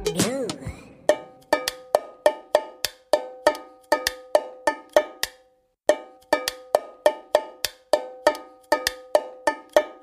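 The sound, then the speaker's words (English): Drumming on an empty aluminum peanut can: many bright, ringing metallic taps in a repeating rhythmic pattern, each with a short clanging tone, broken by one brief pause midway. “What was I just drumming on? It was something that I took out of the recycling bin. And the answer is an aluminum can.”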